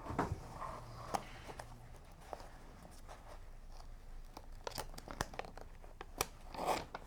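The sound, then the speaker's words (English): Tape is peeled slowly off a distressed hat with a rubbery textured surface, giving faint, intermittent crinkling, crackling and tearing sounds over a quiet background. “So let me peel this for you. So started to work up the tape.”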